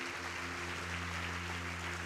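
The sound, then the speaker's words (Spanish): Applause from a church audience: a steady, even wash of clapping that holds at one level throughout, with low sustained tones humming beneath it. “Ese aplauso es para Él, ¿eh? Él es el único que merece todos los aplausos y toda la honra”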